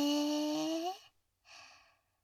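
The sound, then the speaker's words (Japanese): A slow exhale and then a softer inhale during a guided breathing exercise with a short silent pause between them. The outbreath is a long, breathy rush carrying a faint voiced tone, and the inbreath is a quiet hiss. “ちょっと止めて。はい、吐いて。はい、吸って。”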